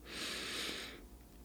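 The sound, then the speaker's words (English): A single deep inhaled breath taken during a guided breathing exercise, a soft airy rush lasting about a second before easing off into quiet. “let's go ahead and take that deep breath. We're going to inhale for 3 seconds.”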